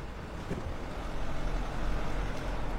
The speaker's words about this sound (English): A white sedan approaches. It stops beside the group of women.